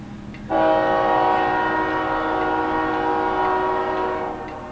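A train passing right outside the window sounds a loud, sustained horn blast that starts abruptly and holds steady for about four seconds over a low rail rumble, with no talking.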